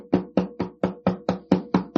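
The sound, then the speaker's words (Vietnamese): Fingertips knock on a wall in nine quick, evenly spaced taps about a quarter second apart. Each tap is soft and dull, and the steady run stands alone with no voices. “họ dùng kiểu như là năm cái đầu ngón tay đó mà họ cứ gõ vô trong cái tường á. Gõ vậy nè.”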